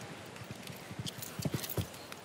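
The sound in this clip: Horse hooves clip-clop as a ridden horse moves during an equestrian show-jumping round, with many quick, even hoofbeats that are fairly faint.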